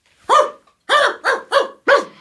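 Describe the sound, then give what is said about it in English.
Dogs barking: several sharp, mid-pitched barks in a steady run with short gaps between them, loud and with no talk. “Actually, we're gonna make a stop at my place, okay? I want to introduce you to my dogs.”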